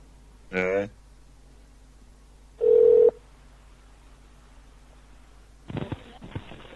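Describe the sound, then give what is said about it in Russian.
Ringback tone of an outgoing phone call: a single short, steady mid-pitched beep between brief, scattered other sounds. “Давай, звони. Так. Звонок пошёл.”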